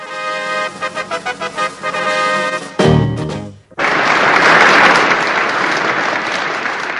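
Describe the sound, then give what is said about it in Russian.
Children applaud as a performer comes on stage at a concert, a steady loud wash of clapping that swells after a brief break, preceded by a few seconds of rhythmic music. “Вот так аплодируют ребята, когда на эстраду выходит народная артистка республики Рина Зеленая.”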